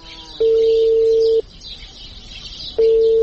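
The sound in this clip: Telephone tones sound as a call is placed on a phone: two long, steady, mid-pitched tones, each about a second, separated by a pause and heard alone over faint background hiss.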